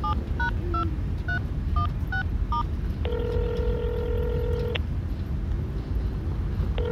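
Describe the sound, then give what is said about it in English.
A telephone number is dialed on a touch-tone keypad. A quick run of short electronic beeps is followed by a long, steady ringing tone, and a second ring begins at the end, all over a constant low rumble. “Call him. I'll dial here.”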